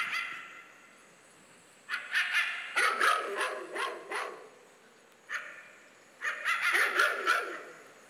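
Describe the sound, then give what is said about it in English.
A dog barks in two clusters of sharp, yelping barks, the first a rapid run of several, the second a short burst, all fairly faint against a quiet background. “Did you hear it? Listen. That's my dog.”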